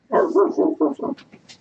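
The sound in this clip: A voice imitates the barking growl of an orc rider's wolf mount from the Warcraft 3 video game. Five quick, rough, bark-like bursts come in a row, followed by a few faint hissy breaths.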